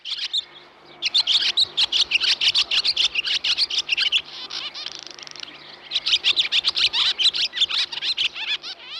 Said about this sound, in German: Vielleicht haben Sie es erkannt, das war ein Schwalben. Und zwar eine sogenannte Rauchschwalbe, wie sie ganz genau heißt.